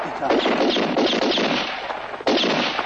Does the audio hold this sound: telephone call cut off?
no